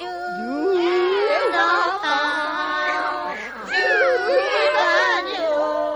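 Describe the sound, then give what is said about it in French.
A chorus of cats caterwauls badly out of tune, with several overlapping wailing, meow-like voices wavering up and down in pitch, loud and continuous across six seconds. “On entendit alors une horrible cacophonie. Aucun chat ne chantait juste.”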